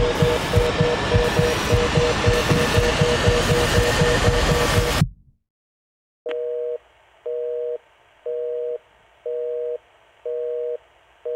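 Telephone busy signal while calling back: a loud rush of noise cuts off into a brief silence, then a steady run of evenly spaced, identical beeps repeats in a regular on-off rhythm.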